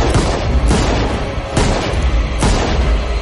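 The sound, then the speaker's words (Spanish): Pistol gunshots fired by a woman in a forest during a fantasy film scene: a few loud, sharp blasts that burst out of a dense, roaring noise bed, with no speech. “Ella dispara.”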